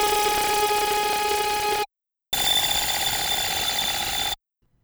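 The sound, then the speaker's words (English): Synthesized discordant notes layered together and run through feedback effects sound like dense, stacked, sustained tones. They play in two loud, steady blocks separated by a brief silence, with no voices. “mixed together and run through some feedback effects, these individual notes sound incredibly squirrely and discordant, like so.”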